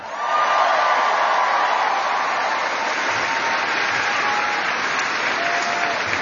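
Audience applause for historian and author Doris Kearns Goodwin, a loud, dense, continuous clapping that holds steady for the whole stretch.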